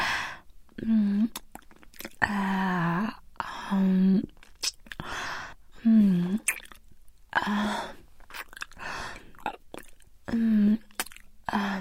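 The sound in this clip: Wet, squishy chewing of eyeballs: many uneven bursts of soft mastication, with low voiced murmurs mixed in, fairly faint overall.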